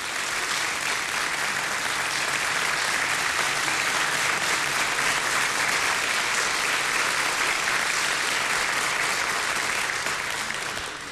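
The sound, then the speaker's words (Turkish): Audience applause at a folk song concert with a choir and orchestra, welcoming the conductor onto the stage. Steady, dense, loud clapping carries on throughout and eases slightly at the very end. “şimdi koromuzu ve orkestramızı yönetmek üzere Şef Ömer Hayri Uzun'u kıymetli alkışlarınızla sahneye davet ediyoruz”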